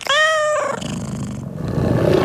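A tiger growl used in an advertisement: a rough, loud, rumbling cat snarl that opens with a bright tonal cry and settles into a low, gritty growl lasting about two seconds, with no talk.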